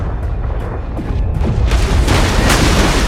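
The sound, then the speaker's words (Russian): Heavy booms from a destroyer's naval guns firing at a submarine, with a shell striking the hull ahead of the conning tower. The blasts blur into a loud, dense, continuous rumble. “Из орудий с каждым выстрелом вырывается черный дым. Один из снарядов поражает подлодку впереди рубки.”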